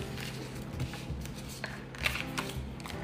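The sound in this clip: Cards shuffled during a card reading give soft, quiet papery riffles and flutters with a few sharper snaps, and no voices.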